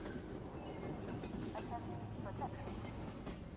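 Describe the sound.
A train rolls on rails, giving a quiet, steady low rumble with faint metallic clatter throughout.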